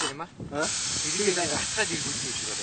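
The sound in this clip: Loud, steady hiss of air being let out of something filled with air, with voices heard over the hiss.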